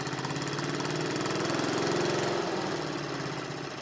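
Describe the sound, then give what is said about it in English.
A small engine runs entirely on hydrogen fuel, giving a loud, steady stream of rapid mid-pitched firing pulses with a knocking edge, heard alone and easing slightly near the end. “so I have an engine running completely on hydrogen. If I turn the hydrogen off, it'll stop.”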